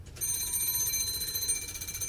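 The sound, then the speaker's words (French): Doorbell ringing: a steady, bright metallic electric trill that starts abruptly and keeps going for about two seconds at an even level. “Qui sonne à la porte?”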